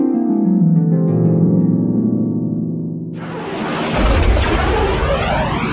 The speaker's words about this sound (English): We open with a battle in space and an Imperial shuttle in trouble.